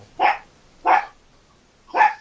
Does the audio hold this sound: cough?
no